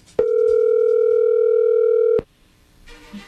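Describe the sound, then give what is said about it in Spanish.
A telephone is dialed: a single steady, loud electronic line tone holds for about two seconds and cuts off abruptly, followed by faint low line noise. “ya no haga ruido, ahí se está marcando”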